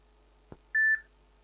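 Telephone line tones as a radio call-in host ends a caller's call: a single click, then one short, steady mid-pitched beep over a faint hum.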